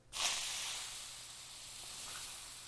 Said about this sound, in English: Do you see the steam? Do you see it vaporizing up?